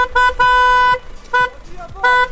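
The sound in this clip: Car horns honk in a huge traffic jam on a motorway, with four sharp, bright toots of varying length, two close together at the start and two more spaced apart after.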